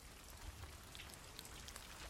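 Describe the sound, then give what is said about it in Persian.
Rain falls outdoors as a soft, steady patter, faint and even throughout with no voices. “آفرین به تو. این بیرون زیر بارون چی کار میکنی؟”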